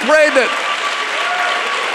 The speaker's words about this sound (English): We clap, and it's easy to clap right now.